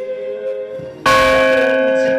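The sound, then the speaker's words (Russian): A rynda, a ship's bell used at a church to call worshippers to prayer, is struck once and blooms into a loud, sustained metallic ring with clear overtones, following the fading hum of an earlier stroke. “До этого на молитву верующих созывал звон вот такой рынды.”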